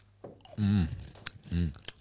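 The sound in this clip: Crisp crunches of teeth biting into a crunchy homemade lemon biscuit (citronspecia), a couple of sharp cracking clicks set among voices talking.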